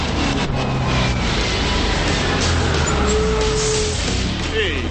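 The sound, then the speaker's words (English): A car takes off and skids into a handicapped parking place: a continuous, loud engine roar with brief high tire squeals near the end, over a dense, busy background. “Malloy takes off and skids the car into a handicapped parking place”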